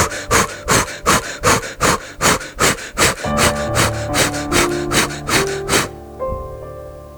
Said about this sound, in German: Atme ein paar Mal ganz schnell ein und aus mit den Armen nach oben. Das hört sich so an.